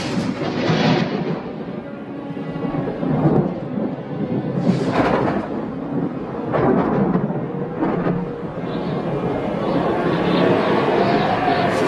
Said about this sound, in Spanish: condiciones son bastante favorables para la formación de tormentas eléctricas. De hecho, ahora mismo ya se están produciendo.